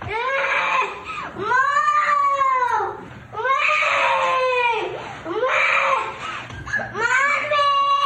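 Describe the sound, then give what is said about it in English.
A child bawling in a played political ad: a string of long, high, wavering wails broken by short gasping pauses, loud throughout and heard without other talk. “this child is just bawling and needs help and is calling for their parents right next to them”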